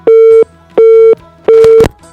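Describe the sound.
Telephone busy signal after a caller's line disconnected: three steady, mid-pitched tones of equal length, evenly spaced with short silent gaps, with some brief noise between the last tones.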